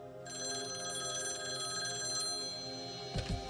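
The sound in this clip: A telephone ringing with an incoming call, a steady continuous electronic ring sustained for about three seconds, fairly faint, with a brief low thump near the end.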